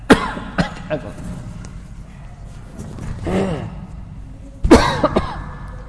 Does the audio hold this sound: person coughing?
yes